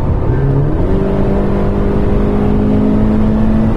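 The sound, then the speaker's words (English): A car engine revs hard as the gearbox kicks down under full throttle. The loud engine note climbs quickly in pitch, then holds a strong, steady droning roar. “It makes a much better noise as well when you put your foot down. It'll just shift down the gears quicker. If I just drop it now...”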